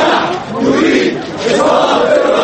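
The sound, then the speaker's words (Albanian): Protesters in central Cairo chant for Hosni Mubarak's resignation: a loud, continuous mass of crowd voices rising and falling in waves. “Njerëzit duan që presidenti të shkojë, kanë brohoritur ata.”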